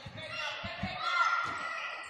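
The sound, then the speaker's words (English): Basketball dribbled on the court during a women's game, several dull, low bounces in an irregular rhythm, faint under steady crowd noise and voices. “She dribbles around and puts a shot up.”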